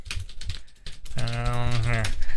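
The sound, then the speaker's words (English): Typing on a computer keyboard gives rapid, irregular clicks and taps at moderate loudness. A voice then talks over the continuing keystrokes. “I can't type and speak at the same time”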